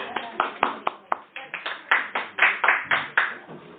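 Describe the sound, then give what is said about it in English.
A small audience claps to welcome guests at the start of a church session. Many sharp claps follow in a steady, fairly even rhythm throughout. “we'll give them a big hand.”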